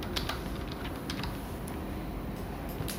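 Computer keyboard keys clatter as the search keyword "corona" is typed, a run of light, irregular clicks over a constant background hiss.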